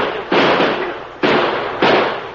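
Gunshots fired at a fleeing horseback rider in a Western radio drama: three loud, booming blasts about a second apart, each a broad noisy crack that decays slowly into the next.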